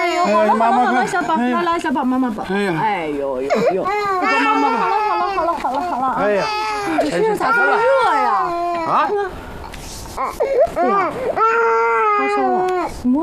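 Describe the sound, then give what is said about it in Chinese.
An infant cries loudly and without letup, in wavering, wailing bursts, while adult voices try to soothe it. “哎呦！哎呦！这是什么？哎呀，一直哭啊！你怎么哄也不行。”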